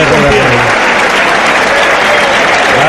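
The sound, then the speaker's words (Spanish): Bullring crowd on its feet applauding matador Andrés Roca Rey, a loud, dense roar of clapping that fills the whole stretch, with a voice heard briefly at the start. “El público en pie agradeciendo el tremendo esfuerzo en cómo se ha jugado la vida Andrés Roca Rey”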